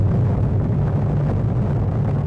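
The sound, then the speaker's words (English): A deep, sustained roaring rumble from a 20-kiloton atomic bomb test explosion near Bikini Atoll in the Pacific, loud and steady throughout with no distinct blast onset. “The world's first peacetime test of a nuclear weapon. The United States explodes a 20-kiloton atomic bomb near Bikini Atoll in the Pacific.”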